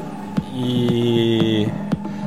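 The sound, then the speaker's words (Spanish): Steady air conditioner hum in a radio control room, the unit not cooling well; a low tonal drone with layered whining overtones holds throughout, broken by a couple of brief clicks. “Y aquí tenemos aire acondicionado, pero bueno, tampoco va muy fino, ¿eh?”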